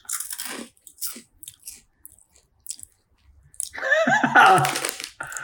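Biting and chewing of a crunchy, sweet and spicy red pepper snack from a bag. A few sharp crunches come first, then a loud, dense burst of crunching and chewing near the end.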